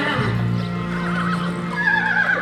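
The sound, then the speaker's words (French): A horse and mare trotting: a loud, tonal whinny rises and wavers over steady clip-clop of hooves, with a second higher neigh toward the end. “Le cheval et la jument montent au petit trot.”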